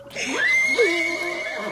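A horse in fog whinnies in one long, loud, wavering neigh that lasts nearly two seconds. Its pitch slides up and then dips, and no other sound is heard.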